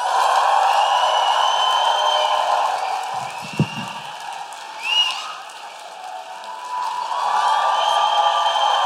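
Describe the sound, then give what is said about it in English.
Audience applause and cheering with whoops welcome an opera singer at a live show at the Coliseum, loud and sustained, dipping briefly midway before swelling again toward the end. “Please put your hands together and make an enormous Guilty Feminist woo-hooing operatic welcome for Nadine Benjamin!”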